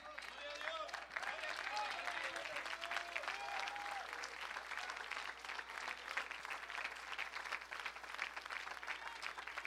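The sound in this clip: Faint, continuous applause fills a Christian church service, a thick, steady patter of many hands clapping, with a voice carrying over it in the first few seconds.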